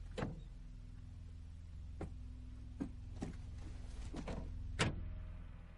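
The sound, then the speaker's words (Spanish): The rear door of a car opens in a World War II drama street scene, heard as several sharp metallic clicks and knocks spaced over a few seconds above a low, steady hum. “Un hombre enchaquetado le espera en la calle. Camarada Yogi, acompáñeme. Le abre la puerta trasera de un coche.”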